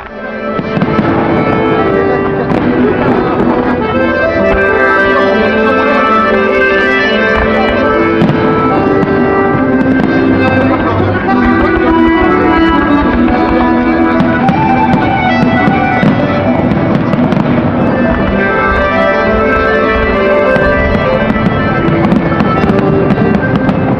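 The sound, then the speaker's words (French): Fireworks go off during festivities in northern France: a loud, dense, unbroken stream of crackles and bangs that continues throughout. “Ça sent les festivités du nord de la France. Nous avons reconnu le feu d'artifice et l'ambiance”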